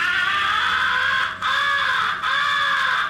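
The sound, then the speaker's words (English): A handheld crow call is blown to imitate a crow's recognition call, giving three long, loud, drawn-out nasal caws in close succession, each held steady and separated only by brief breaths. “After the crows have turned and are coming to your blind, switch to the second essential call, the recognition call.”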